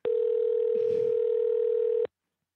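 A telephone dial tone as a call is placed: one steady, unwavering tone that sounds for about two seconds and then cuts off abruptly into silence.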